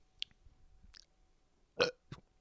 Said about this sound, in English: Fake burp.